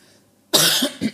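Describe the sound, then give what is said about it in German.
A person coughs into a microphone in one short, harsh burst that breaks into a second, smaller hack, loud and close after near silence. “Hast du noch gar nicht ins Mikro gehustet, was ist los?”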